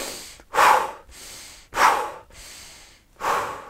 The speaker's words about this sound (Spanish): Lo que hacemos en esta técnica, primero, es exhalar